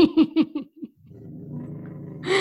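A dog growls, upset by something. A few short barks or yips come first, then a low, sustained rumbling growl that swells slightly toward the end.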